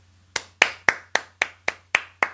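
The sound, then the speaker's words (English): One person clapping to demonstrate applause: eight crisp, evenly spaced hand claps at a steady moderate tempo, each with a sharp attack and short decay, set against a faint low hum and otherwise quiet. “Like that. That's to applaud.”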